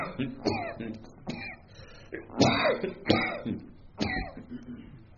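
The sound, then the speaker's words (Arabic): Harsh coughing from a speaker during an Arabic religious lecture, about six rough, throaty bursts spaced at fairly even intervals, with some throat clearing between them. “وكأن الكحة اللي بتقول خلص يعني”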